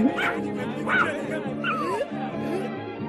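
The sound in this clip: A dog in a Kurdish animated series yipping and whimpering, a few short, high-pitched cries with sliding pitch, moderately loud and steady.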